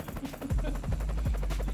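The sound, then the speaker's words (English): A video-game helicopter flies in outside a house, with a rhythmic rotor chop over a loud, low engine drone that swells and holds. “A helicopter flies in outside the house”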